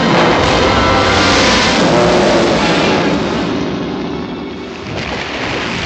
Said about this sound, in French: Hélas, d'un coup de queue, Monstro fracasse le radeau.